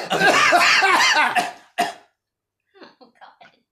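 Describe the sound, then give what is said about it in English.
Coughing is used as a hi-hat beat. A loud rough hacking burst and one sharp cough are followed by a few short, faint, clipped coughs in a quick rhythmic pattern. “That's the hi-hat cough.”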